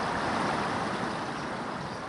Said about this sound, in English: Today, 184 memorial benches stand outside the Pentagon, one for each victim. The water beneath them flows for 23 hours and 59 minutes each day.